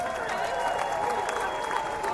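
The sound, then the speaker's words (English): Audience applause for a TUC regional union speaker as he is introduced: a dense, continuous clatter of many hands clapping at a steady, even level throughout. “A round of applause, please, for Tim Roach.”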